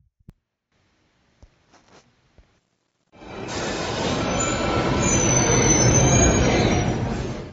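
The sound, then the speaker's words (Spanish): A metro train arrives at a stop. After a few faint clicks, a loud rumble with high squealing wheels starts abruptly about midway and carries on steadily to the end. “Parada Metro Xelotzingo.”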